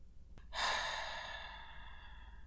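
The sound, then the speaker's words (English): A single long, soft exhale during a guided meditation. The breathy hiss starts suddenly and slowly fades over about two seconds, heard alone without talk. “Breathe out.”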